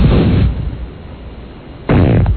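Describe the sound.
A man's fart comes as loud, low, rasping bursts, one at the start and another near the end, with a quieter rumbling stretch between them and no talk.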